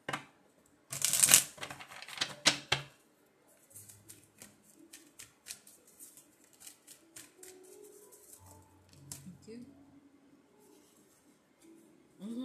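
Tarot cards are shuffled in a few loud, rapid riffling bursts, followed by softer, scattered handling and shuffling sounds.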